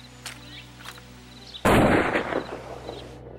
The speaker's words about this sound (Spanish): ¡Fuego! Una ráfaga de plomo y un tiro de gracia terminaron con su vida.